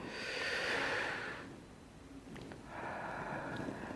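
People breathing deeply together in two long, slow breaths, each a soft, airy rush of several seconds with a quieter pause between them and no talk.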